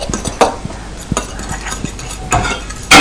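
A utensil stirs a mixture in a very hot pan, giving irregular scrapes, taps and clinks of varying loudness, with a longer, louder scrape at the very end.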